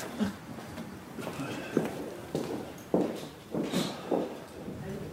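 Footsteps of someone walking into a cemetery: a quiet, steady series of soft steps at an even walking pace.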